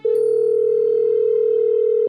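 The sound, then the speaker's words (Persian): A steady telephone dial tone sounds while a call is being placed: one continuous, unbroken mid-pitched hum with faint overtones, loud and alone, cutting off abruptly at the end. “شروع کردم به کرتیس زنگ زدن که فقط اذیتش کنم.”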